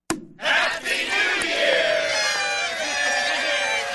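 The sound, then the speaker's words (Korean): Cheering from a crowd celebrating Happy New Year at midnight with champagne in the United States. Loud shouting and whooping voices burst in after a brief quiet start and carry on as a continuous, excited roar. “네, 이렇게 샴페인을 터뜨리며 Happy New Year! 라고 인사하면서 새해를 축하합니다.”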